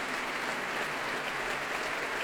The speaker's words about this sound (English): Myung-Woon Chung stands back to let them bask in this applause, so well deserved.